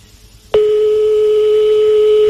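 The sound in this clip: A telephone ring during a call: after a quiet start, one loud, steady electronic tone holds at a constant pitch for nearly two seconds, then cuts off abruptly.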